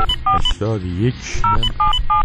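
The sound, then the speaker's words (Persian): Touch-tone telephone dialing: a series of short, steady two-pitch keypad beeps as a police cyber-unit number is entered, with brief pauses between the beeps and a voice speaking in the middle of the sequence. “بله، بنده الان در حال شماره گیری هستم.”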